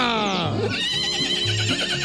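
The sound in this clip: A mare whinnies with a loud, quavering cry that falls in pitch, while people talk over it.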